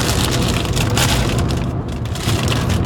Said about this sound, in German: Ja, noch Chips gekauft eben. Die guten von Ace. Mediterran mit Olivenöl. Sollen wir mal aufmachen?